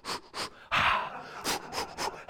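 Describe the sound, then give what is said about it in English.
A man's voice imitates Lamaze-style labor breathing with a series of quick, sharp panting breaths and one longer, breathy exhale in the middle. “I went and I took the classes with my wife, and man, we're there and say, okay, at this time of pregnancy, you got to breathe like this.”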